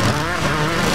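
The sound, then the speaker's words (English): Loud engine roar of speedway motorcycles racing at a Friday night summer event, a steady, continuous growl that holds at one level across the whole short burst. “Hear that? That's the sound of Fast Friday's Motorcycle Speedway Racing.”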